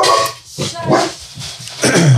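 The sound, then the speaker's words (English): A dog with an injured, limping foot barks and yips a few times, loud and sharp, with short whining, whimpering tones between the barks. “Dogs bark.”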